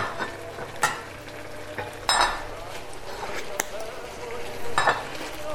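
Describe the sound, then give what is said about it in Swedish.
Linguine being stirred in clam broth in a pan: a steady simmering sizzle runs throughout, broken by a few brighter scraping clinks of the utensil against the pan. No voices are heard. “Så att det vill ju till att man står och rör så här hela tiden.”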